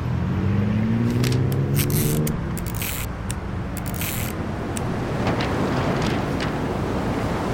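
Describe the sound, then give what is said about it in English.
Wind blows steadily and loudly beside a brick wall, tearing away a taped paper flyer; a broad rushing roar fills the whole clip, with a low humming tone during the first two seconds. “the wind blew the flyer away, but I put plenty of tape on it”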